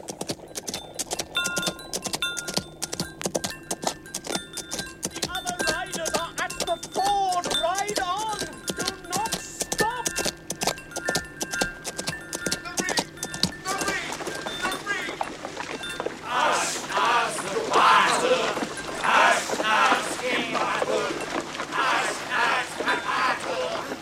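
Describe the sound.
Galloping horse hoofbeats, a rapid, uneven clip-clop drumming throughout with jingling tack, while voices shout over the hooves.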